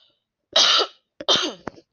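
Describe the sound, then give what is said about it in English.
Two loud, harsh coughs go straight into a microphone, separated by a short pause, with a faint catch of the throat after the second. “But I do apologize about coughing into the mic.”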